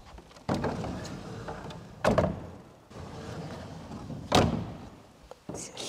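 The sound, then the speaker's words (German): Torah ark doors in a synagogue being opened: a few dull wooden thumps and knocks with soft rattling and scraping between them, moderately loud, with no voices. “öffnet den Toraschrein für mich.”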